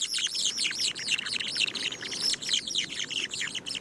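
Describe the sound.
A pair of birds sings a duet: dense, continuous high chirping and warbling phrases that overlap and repeat quickly throughout, fairly loud and with no pauses.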